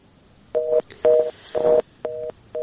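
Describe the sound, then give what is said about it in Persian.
Telephone line tone sounding as a caller's call drops: a steady beep repeating in five evenly spaced pulses, the last one cut off. “فکر کنم یک شنونده روی خط داریم. بله؟”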